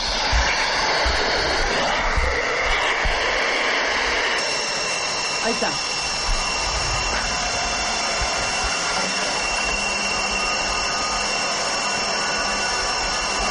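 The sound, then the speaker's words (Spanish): An aircraft's landing gear is lowered against a loud, steady roar of engine and airflow, the tone of the roar shifting partway through before settling into a constant hum. “A ver, ¿puedo poner el tren de aterrizaje? A ver si se alcanza a escuchar perfectamente bien.”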